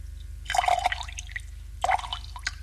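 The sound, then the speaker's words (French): A drink poured from a bottle into two glasses on a low table: two short, bright splashing pours with gurgling and a few drips, over a steady low hum. “Revient avec une bouteille et deux verres et fait le service sur une table basse.”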